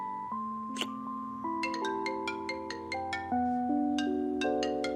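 A phone ringtone plays a melodic tune of many chime-like notes in a steady rhythm, fairly faint and alone, with no talking over it.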